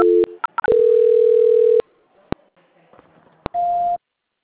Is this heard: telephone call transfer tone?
yes

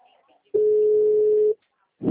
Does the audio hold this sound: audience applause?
no

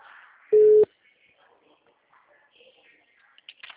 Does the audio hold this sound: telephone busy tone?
yes

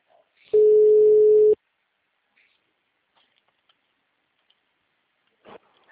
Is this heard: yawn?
no

